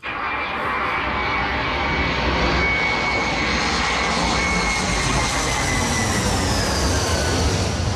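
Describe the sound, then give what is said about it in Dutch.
Loud, continuous jet roar of an F-35 fighter flying overhead, a broad rumbling rush topped by a high whine, holding steady and heavy for the full eight seconds with no voices. “Dan komt er even een F-35 overvliegen.”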